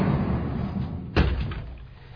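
Doors being shut one after the other; one firm, sharp thud stands out midway over a low, continuous rumble, with no voices.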